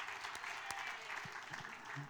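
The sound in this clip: Faint applause from a meeting audience as a site plan amendment is announced as approved: a steady, dense patter of many hands that keeps an even level throughout.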